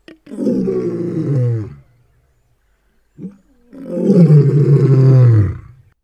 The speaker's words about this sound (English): I'm going to include the sound of a lion roaring right here.